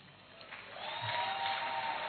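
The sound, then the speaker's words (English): Audience applause welcomes a newly married couple at the first wedding of the year. It is faint at first and swells into a steady, soft clatter of clapping after the first second. “Give it up for them. First wedding of the year.”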